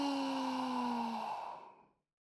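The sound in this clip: A long, slow breath out through the mouth during a guided breathing exercise, a soft airy rush that holds steady for over a second, then tapers away to silence after about two seconds.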